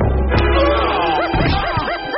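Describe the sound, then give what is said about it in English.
Snowy the dog barks in a Tintin drama: a few short, high yipping barks with rising-and-falling pitch sound in the second half, over a dense, busy mix of other sound. “Oh, no, no, get the dog away from me! Careful, Snowy.”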